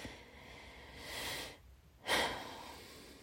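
Quiet, slow deep breathing from a person trying to steady themselves: two long, airy breaths with a short lull between them and no talking.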